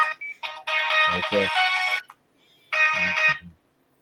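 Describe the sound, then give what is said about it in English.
A mobile phone ringtone plays as two bright, melodic bursts of bright tones separated by a short gap, the first longer than the second. “Oh, sorry, that's my phone.”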